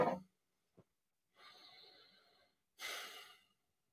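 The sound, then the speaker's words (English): Quiet, slow breathing during a guided stillness exercise: a brief initial breath sound and a tiny click, then one long drawn inhale followed by a longer exhale, with silence in between. “So friends, let's get a little breath.”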